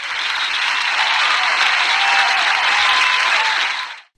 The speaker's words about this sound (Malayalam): Give them a big round of applause.